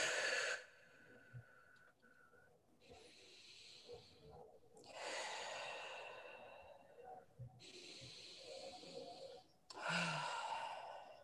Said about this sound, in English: So take three big deep breaths in through your nose and out through your mouth.